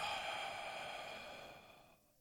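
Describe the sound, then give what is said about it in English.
A slow exhale during a guided meditation breathing exercise, a soft, steady, airy rush of breath that gradually thins and fades out over about two seconds, heard alone. “So inhale. Exhale.”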